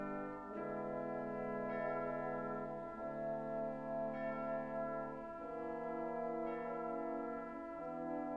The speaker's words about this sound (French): Ah, mais voilà l'heure qui sonne, 6h du matin, l'heure fatidique où les fêtards qui ont passé la nuit à danser vont rentrer se coucher.